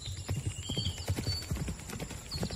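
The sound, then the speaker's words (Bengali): Rhythmic clip-clop of horse hooves as several horses approach through a forest, a steady run of many light, even hoof strikes, soft and without talk. “সূর্য যখন পশ্চিমে নামতে শুরু করেছে এমন সময় সুজন শুনল ঘোড়ার খুরের শব্দ,”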